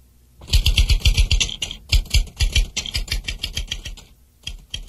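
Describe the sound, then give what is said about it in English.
Typewriter keys struck in quick, uneven bursts, many sharp mechanical clacks in a busy rhythm, loud and alone, easing off briefly before a final few strokes near the end. “Listen. Is this a typewriter? Yes. Yes, it is.”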